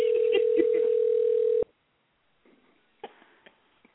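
A telephone dial tone for a prank call holds as one steady, loud, unbroken tone for about a second and a half, then cuts off abruptly. A few faint clicks and rustles follow in near silence.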